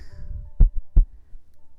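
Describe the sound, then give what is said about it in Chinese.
A heartbeat gives two deep, soft thumps about a third of a second apart, low and muffled, over a faint background rumble. “这个声音了？只有姐姐的心跳陪着你了。”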